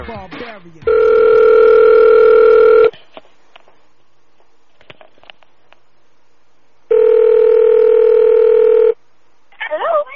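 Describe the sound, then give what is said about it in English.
Outgoing telephone call: a quick flurry of dialing tones opens, followed by two long, steady ringback tones of about two seconds each, separated by a pause of roughly four seconds, before a voice briefly begins at the end. “We're calling Melody, everybody. Stand by.”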